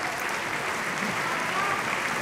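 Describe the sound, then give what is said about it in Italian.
An audience at a festival concert applauds, dense and steady clapping that holds at an even, moderate level throughout. “Direi, Alessandro, che potremmo lasciarci su questo bel applauso”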